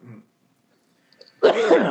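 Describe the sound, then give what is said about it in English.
A person coughs: a brief low rasp, then after a pause a longer, louder rough burst of throat clearing. “If you need to cough, then you need to cough.”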